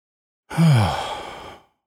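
A single big exhaled sigh during a guided meditation: a loud, breathy release with a brief voiced tone at its start, lasting about a second before tapering into silence.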